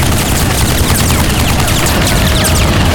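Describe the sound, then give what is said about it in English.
A big machine gun fires from inside a tanker in a loud, unbroken stream of rapid shots that fills the whole stretch with dense, rattling gunfire and no pauses. “He shoved the gun tight into his shoulder and pressed the trigger of the big gun.”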